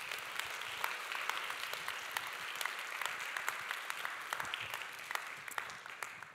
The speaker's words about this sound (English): Give her a hand, please.